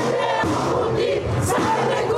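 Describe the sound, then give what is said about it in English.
A crowd gathered outside the Iranian embassy in Berlin: loud, dense, continuous crowd noise of many voices shouting together, sustained without a pause. “Outside the Iranian embassy in Berlin, a crowd gathered.”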